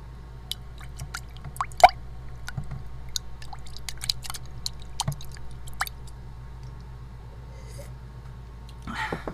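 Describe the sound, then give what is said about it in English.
Soft, wet clicks and taps come from a waterproof microphone being used to stir a cup of coffee. They are irregular and fairly faint, with one sharper knock early on and a brief louder rustle at the end; no one speaks. “Yes, I use the microphone to stir my cup of coffee. It is a waterproof mic.”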